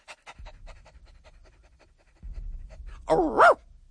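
A dog pants in quick, rhythmic breaths while out on a moonlit night walk, a steady run of short airy puffs that continues under a low rumble in the second half.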